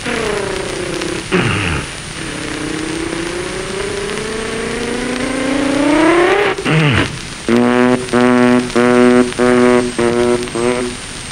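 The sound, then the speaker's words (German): A voice imitates an old car being hand-cranked and started. A long rising whine and a brief swooping drop give way to a steady run of rhythmic, throaty putters as the engine catches. “Da nehme ich mein Auto und flüchte. Ich kurbel es an.”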